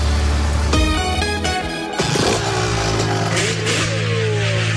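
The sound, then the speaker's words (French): A motocross motorcycle engine revs loudly on a racing circuit. The roar is continuous and strong, and its pitch shifts up and down as the throttle works. “Les meilleurs pilotes de motocross du monde vous attendent en terre mayonnaise sur le circuit du Motoclub d'Ernée.”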